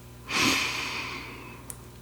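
Slow, soft breath during a relaxation exercise: a single airy breath swells quickly and fades over about a second and a half, quiet and alone, with a faint click near the end.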